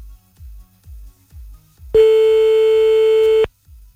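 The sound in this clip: A telephone line tone sounds as a call is placed, a steady beep lasting about a second and a half, preceded and followed by rhythmic low pulses.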